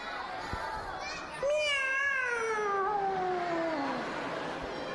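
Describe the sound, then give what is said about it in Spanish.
A cat meowing: one long, drawn-out meow that starts strong and slides steadily downward in pitch, clear above a faint background. “un gato. Gatito, diría yo.”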